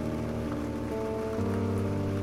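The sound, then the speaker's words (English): Steady rain on a surface, a soft continuous patter with low sustained musical tones underneath that shift pitch partway through. “and you're just standing here in the rain, in the dark,”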